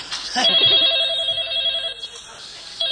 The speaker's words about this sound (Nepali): Phone phone phone आयो, तिम्रो हातमा फोन आयो।